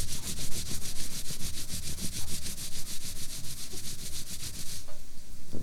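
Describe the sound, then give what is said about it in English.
Palms rub together in a continuous, brisk, hissing friction of rapid regular strokes, loud and steady for most of the stretch before easing into a softer texture near the end. “You rub your palms together. Like this.”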